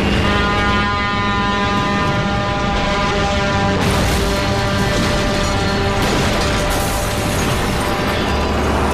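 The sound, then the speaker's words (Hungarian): A truck horn honks as the truck charges at a telephone booth: a loud, steady, harmonic blare that runs almost unbroken through the whole stretch over dense rumbling noise, growing harsher partway through. “Neki hajt a telefonfülkének a kamionnal. De előtte dudál. Dudál.”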